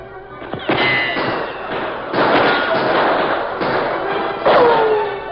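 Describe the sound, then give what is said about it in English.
Rapid gunshots ring out near the mouth of a cave, a sound effect in a Western radio drama. A few loud, sharp bursts each leave a long ringing tail. “Toto had crawled close to the mouth of the cave. His war cry was followed by fast shots.”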